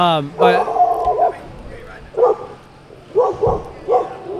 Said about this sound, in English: Hi, puppy. She is here in the doors.